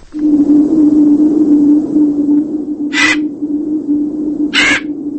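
A crow caws twice, two harsh, raspy calls spaced about a second and a half apart, heard over a steady low droning hum.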